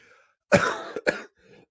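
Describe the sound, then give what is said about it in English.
Two coughs from someone who has been sick all week: a harsh, drawn-out first cough and then a shorter second burst, both fairly faint against near-silence. “excuse me with this cough again, anyone.”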